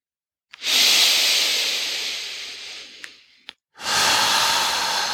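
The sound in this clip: A long exhaling breath during a guided relaxation exercise, heard as a loud, drawn-out airy hiss that fades gradually over about three seconds, followed by the start of another breath.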